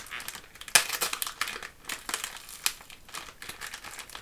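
Paper crinkles and rustles as a gift wrapped in lots of tape is pulled open. Many irregular crackles and scratchy bursts come in quick clusters at a fairly soft level, with no voices.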